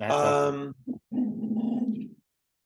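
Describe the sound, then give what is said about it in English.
A pet dog whines and grumbles, a strained, tonal cry followed by a short, low, rough vocal stretch of about two seconds, with no voices. “Tiger Lily, you got to stop that. I'm sorry, that's my dog whining.”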